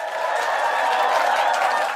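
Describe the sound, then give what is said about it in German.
Applause and crowd noise from a studio audience, a dense, steady wash of clapping that holds at an even level for the whole stretch, with no single voice standing out. “Applaus!”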